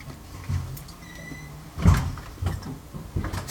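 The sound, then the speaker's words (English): Doors opening upstairs make faint creaking, with a thin squeak of hinges and then a dull thump. A few softer knocks follow against a low background murmur. “I don't know if you could hear the crackling upstairs of opening doors.”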